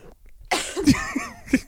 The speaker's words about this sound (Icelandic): þú hóstar svo mikið og borðar svo mikið